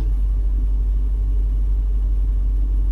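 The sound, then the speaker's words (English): Steady low engine rumble from a car driving on a nearly empty fuel tank, a constant droning hum with no revving or change in pitch. “Now I'm driving without zero gas in my... Oh my God. My car is more fuel efficient than I thought, but I'm driving with no gas.”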